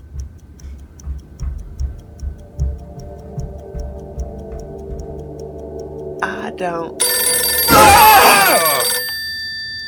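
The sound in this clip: A telephone bell rings loudly in one long, harsh burst near the end, after several seconds of low talking voices.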